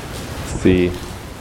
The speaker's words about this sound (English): it really is raining pretty hard out there